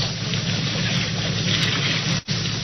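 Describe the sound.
A motorboat engine runs out on the water as a steady, rumbling drone with a broad wash of noise. The sound holds level throughout, apart from one brief dip near the end.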